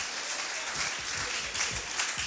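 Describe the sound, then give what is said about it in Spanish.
Applause from a church audience during a morning worship service, a dense, steady wash of many hands clapping that carries on without a break for the whole stretch. “Y si ese aplauso va a ser para él, ¿qué le parece si se lo damos con todo el corazón?”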